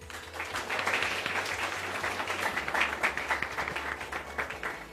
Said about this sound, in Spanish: Aplauso para la maestra.